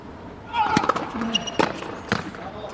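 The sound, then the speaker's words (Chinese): Tennis serve in a professional match, the ball struck by the racket toward the inside corner of the second service box, heard as a few sharp knocks over a low, steady background hum. “好发球，二区内角”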